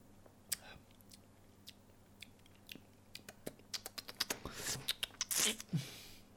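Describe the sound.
Crisp crunching of a rhubarb-flavoured snack being chewed, with sharp dry clicks that start sparse and grow into a denser run of crunches toward the end. The chewing stands alone, with no talk.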